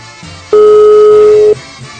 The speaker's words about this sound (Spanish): Vamos a marcarle a este hombre a ver si nos contesta.